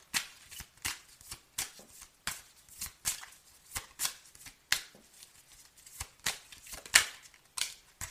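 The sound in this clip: Playing cards are dealt one after another, many crisp, papery flicks and slaps in a fairly regular rhythm, moderately loud with quiet gaps between them.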